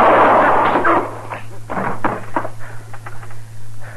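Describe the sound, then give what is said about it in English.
A single gunshot goes off into the floor as a loud, sharp blast at the very start, then trails into a decaying rumble with scattered faint crackles over a steady low hum. “I held his arm so he couldn't get his gun up. It went off right on the floor there.”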